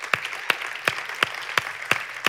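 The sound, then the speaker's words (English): Seven sharp, evenly spaced claps in a steady rhythm welcome a speaker to the stage at a church service. The claps are loud and clean, with nothing else heard between them. “So would you join me in welcoming him to the stage of Fellowship Bible Church?”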